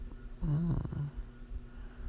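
A soft, low whimper from a person: a brief wavering moan, then a shorter second note, faint against quiet background noise.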